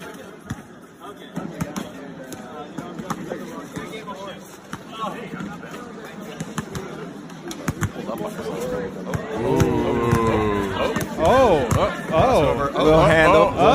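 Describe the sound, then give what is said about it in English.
Basketball bouncing as Andrew Yang shoots a basketball: many sharp, irregular thumps of the ball, with people talking over them, the voices growing louder toward the end. “Next up, Andrew Yang trying to shoot a basketball.”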